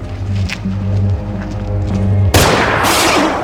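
A single sharp gunshot from a Denzel Washington movie scene cuts in abruptly after a low, droning music bed, followed by a loud, noisy sustained tail.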